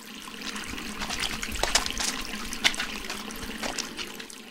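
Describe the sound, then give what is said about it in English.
Tap water runs steadily while hands are washed, a continuous hissing trickle broken by a few light splashes and sharper drips, with no talking. “Wash your hands and you can help me prepare.”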